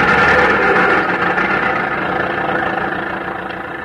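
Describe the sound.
An old car engine runs after being started with a hand crank, a steady, loud rumbling drone that thins slightly toward the end.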